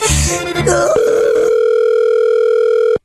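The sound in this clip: Brief talk gives way to a telephone dial tone after a hung-up call, a steady single pitch held unbroken for about two seconds before it cuts off abruptly.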